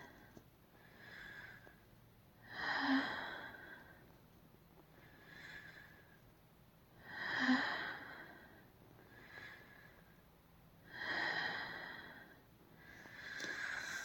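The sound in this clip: Heavy, out-of-breath breathing from a person resting after exertion: slow, rhythmic breaths roughly every two and a half seconds, some stronger than others, faint and without any talk.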